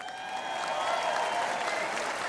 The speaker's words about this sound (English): Oh, he threw a God in there. Yes. Well, always gets they clap.